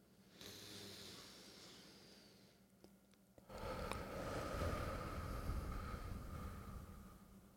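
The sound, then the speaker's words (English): A deep breath taken during meditation: a soft, airy inhale, then a long, loud, rushing exhale lasting several seconds, breathy and alone without talk. “So the first breath now.”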